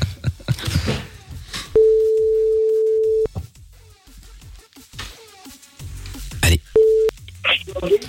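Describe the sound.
A telephone call is being dialled: a long, steady ringing tone sounds, then a shorter one later. Voices talk and laugh around the tones.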